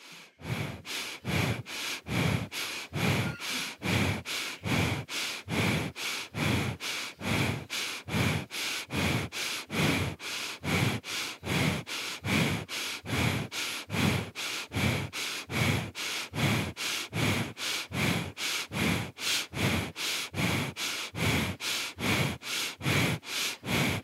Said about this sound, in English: Belly breathing. Right, the very lower part of your belly.